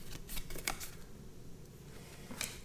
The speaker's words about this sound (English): Okay, so this one looks like it was sealed well. See how kind of shape these cards are in.